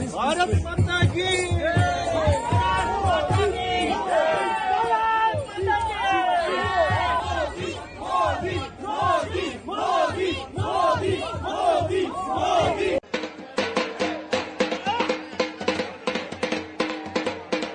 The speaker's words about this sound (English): Despite the chilly weather, the Indian community in Paris gave Prime Minister Narendra Modi a heartwarming welcome.